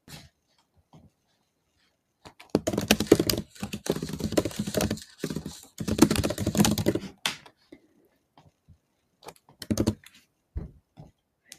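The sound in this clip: Someone types a message on a computer keyboard. Rapid plastic key clicks come in bursts of varying density, separated by pauses and scattered single taps, with no talking.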